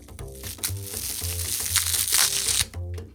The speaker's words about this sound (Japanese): では、桜ふがしもちょっと割りまして、じゃあ割るとこからいきましょう。いきます。